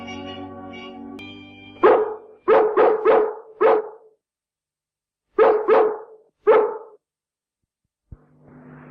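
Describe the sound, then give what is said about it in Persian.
Sharp dog barks in London at dusk, eight in all: a quick run of five, a pause, then three more, each loud and clipped with silence between. “واق واق غروب؟ ولی عزیزم این فقط برای رد و بدل شایعاته.”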